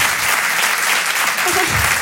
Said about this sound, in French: Applaudissez ceux qui ont fait du catéchisme.